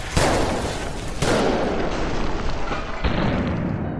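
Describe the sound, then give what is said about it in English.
Police fire loud shotgun blasts loaded with buckshot to recreate a shooting. Three sharp, booming reports are spaced unevenly, each with a short decaying tail. “This next shot is Detective Walters. Attempting to recreate every shot fired at Bracey by the police.”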